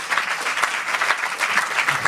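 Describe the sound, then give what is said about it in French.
Applause for EDF after it is named winner at a mock awards event during COP21: dense, steady clapping from a group, loud and continuous. “Please applause in EDF.”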